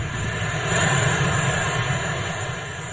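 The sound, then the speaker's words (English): Marine One, the presidential helicopter, lands with a loud, steady engine roar that holds throughout, swelling slightly midway. “That is Marine One landing.”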